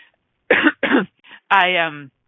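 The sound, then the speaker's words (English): Two sharp coughs in quick succession, then a faint short one and a brief voiced sound from the same person. “cough not intended, it was just there.”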